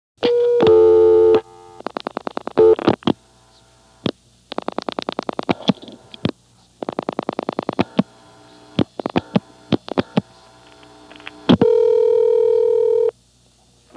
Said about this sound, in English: will probably go to the Beaufort intercept recording when I dial 00 plus any 2 digits.